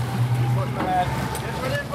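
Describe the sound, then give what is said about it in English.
A high-speed rubber rescue boat races across the Mediterranean Sea off Libya toward a migrant dinghy. Its engine gives a faint, steady low drone mixed with wind and water noise. “On the Aquarius boat, some 30 miles off the coast of Libya, rescuers lower a high-speed rubber boat into the water and race off toward a migrant rubber dinghy in trouble.”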